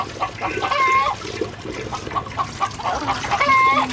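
A chicken clucks in a string of quick, uneven clucks and squawks, fairly loud over a steady rushing noise, with no talking.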